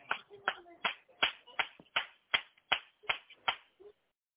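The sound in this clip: An audience claps their hands at a church service, eleven sharp, evenly spaced claps in a steady rhythm, fairly faint.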